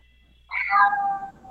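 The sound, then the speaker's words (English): A house cat gives a single clear meow, a mid-pitched, slightly nasal call lasting under a second that sags a little in pitch as it fades, with no talk over it. “Oh, that's a kitty cat.”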